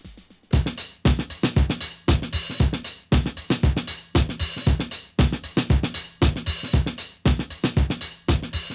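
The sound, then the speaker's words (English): A looping breakbeat sampled from another song plays on its own: many dense, crisp drum hits in a busy pattern that repeats steadily, with even loudness throughout. “Now, what sits underneath that beat is really quite interesting. It's a breakbeat, presumably lifted from another song, which just loops throughout pretty much all of the song, and that sounds like this.”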